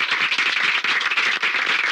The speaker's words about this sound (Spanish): Pues vamos a aplaudir por aclamación al público que está aquí al lado.